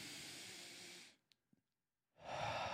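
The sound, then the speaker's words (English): A person attempts a single deep breath as a demonstration: a long, breathy rush of air, then a short silence broken by two faint clicks, then another loud breath begins. “A single, like, deep breath, like me doing this.”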